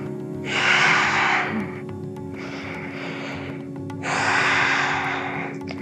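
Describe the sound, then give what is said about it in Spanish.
Deep breathing in and out while holding a yoga pose: three long, airy breaths, the first and last louder, over a low steady hum. “inhala en la posición, exhala, respira ahí”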